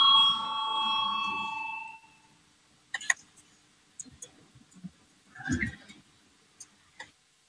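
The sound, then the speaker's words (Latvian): A parliament's electronic voting bell rings as a steady, clear tone for about two seconds, then stops. Scattered sharp clicks of voting buttons follow in the quiet. “Lūdzu, zvanu, balsosim par 17. Atbildīgās komisijas priekšlikumu.”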